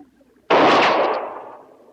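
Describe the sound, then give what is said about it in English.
A single pistol shot cracks out with a sharp, loud onset in a western standoff. A rumbling tail follows and fades over about a second. “I'm just trying out my arsenal. That was my pistol.”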